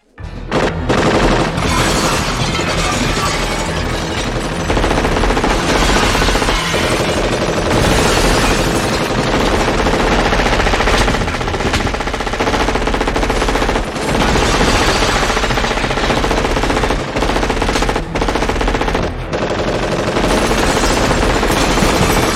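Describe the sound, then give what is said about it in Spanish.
Loud, continuous burst of automatic gunfire shooting at glass windows, dense rapid cracks that run almost without pause for the whole stretch, with no speech. “A los cristales. Dije que dispares a los cristales.”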